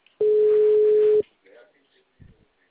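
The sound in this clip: A single steady telephone calling tone sounds as a call is placed: one loud, mid-pitched beep lasting about a second, followed by faint clicks and rustles on the line.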